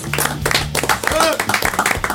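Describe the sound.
An audience claps in quick, irregular bursts of sharp hand claps, fairly loud and mixed with people talking and calling out over them.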